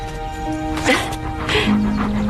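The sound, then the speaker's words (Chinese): A stray dog gives a few short whimpers and yips under people talking. “哦，它是一条流浪狗。”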